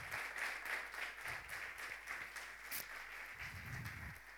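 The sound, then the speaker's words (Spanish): Applause from an audience for the actors after a short skit at a church service: dense, steady clapping that fills the whole clip at an even, fairly loud level. “le damos un aplauso a los actores”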